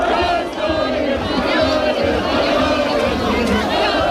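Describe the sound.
Crowds across Spain celebrate a World Cup semifinal win with a continuous din of cheering, shouting and excited chatter that stays loud throughout.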